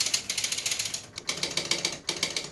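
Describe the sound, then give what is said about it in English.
Rapid mechanical clattering from an electromechanical pinball machine starting up in a department store, with many regular ratcheting clicks in quick succession. Two short gaps break the run, and no voices are heard. “I can remember I fell in love with the startup sound of an electromechanical pinball machine, oh, when I was 3 or 4 years old.”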